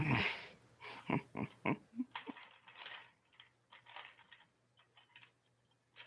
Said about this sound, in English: Let me type this thing down. That's okay. Can't type shit right now.